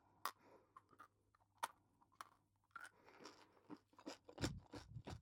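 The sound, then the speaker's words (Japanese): Quiet, close chewing of gum during a break, many soft, moist crunches and clicks in an uneven rhythm, with a slightly louder flurry near the end. “ガム。これはね、なんか休憩中に甘いものとかを食べると口の中が気持ち悪くなっちゃうので食べるんですよ、これをね。”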